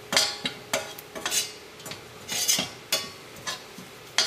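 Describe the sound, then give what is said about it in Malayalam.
A spoon scrapes and clinks against a pan as chillies are stirred for a Karupp dish, in many quick, irregular strokes that are fairly faint, with no talking. “മുളക് നന്നായിട്ടൊന്ന് മുരിയണ വരെ നന്നായിട്ടൊന്ന് ഇളക്കി കൊടുക്കാം”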